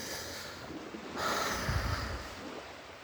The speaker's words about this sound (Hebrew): נושם בכבדות.